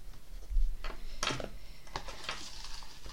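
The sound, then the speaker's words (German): A fountain pen writes on paper in soft, intermittent scratchy strokes, faint and short, with no voices. “Übrigens, was ihr auf und zugehört hört, ist mein Füller. Ich schreibe mit Füller.”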